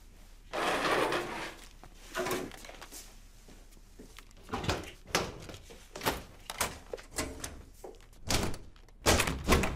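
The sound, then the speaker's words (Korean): School lockers at the back of a classroom being opened: a long run of irregular thunks, knocks and clattering rattles, many separate bangs, some sharp and loud, with scattered quieter shuffling between them. “뒤에 사물함 모두 열어.”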